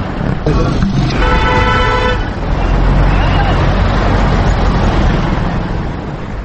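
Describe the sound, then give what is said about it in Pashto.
Dense crowd and traffic din fills a busy vehicle station in Kabul's old city bazaar, where buses and cars leave for Logar. The roar is continuous, with a sustained car horn blast early on and voices mixed into the noise. “دلته لمړی د کابل په زوړ ښار شور بازار او یا تخت پل کې سره چوک ته سیرمه د لوګر په لور د موټرو اډو ته ځو چې د خلکو ګڼه ګوڼه شور او زوږ اورېدل کېږي.”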